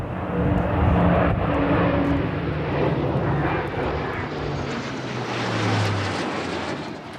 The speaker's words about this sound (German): Die sind jetzt heute Piloten bei der Luftwaffe und die sind extra aus Neuburg an der Donau einmal über diese Zeremonie, über die Kaserne in Roth geflogen. Und das war ganz schön laut.